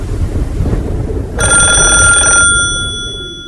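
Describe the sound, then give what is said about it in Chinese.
An urgent telephone bell rings in a military officer's office: one shrill, trilling burst of about a second over a steady low rumble, its tone then fading away. “一阵急促的电话铃声惊醒了正在打盹的板垣少将。”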